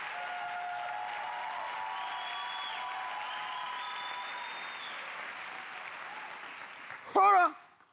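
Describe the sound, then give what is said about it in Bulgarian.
A church audience applauds during a sermon, a steady, moderate patter of clapping over sustained tones that eases slightly before a brief louder sound at the end. “Виж как ръкопляска и седно си болен от коронавирус или нещо такова. Я ръкопляскай като че си в пробуждане.”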